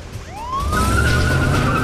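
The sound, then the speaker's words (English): A police squad car's siren wails loudly as it chases another vehicle, its pitch sweeping up from low and then holding a high, steady tone, with a low engine rumble underneath. “A police squad car does a U-turn and chases after her.”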